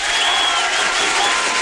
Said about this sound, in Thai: ตบมือต้อนรับกันก่อนค่ะ